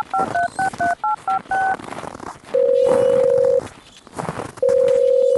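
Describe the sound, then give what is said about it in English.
A telephone number is dialed: a quick series of short two-tone keypad beeps, then two longer, steady, single-pitched tones with a pause between them, over low background noise. “I have to make a call, though.”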